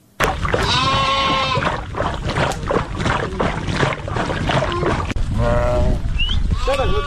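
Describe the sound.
A flock of sheep and goats belonging to Afghan nomads bleats loudly, with many overlapping, wavering calls rising and falling continuously throughout.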